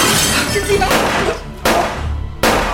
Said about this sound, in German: Ich griff nach einer Lampe, die in meiner Nähe stand, und schleuderte sie mit aller Kraft in eines der Fenster.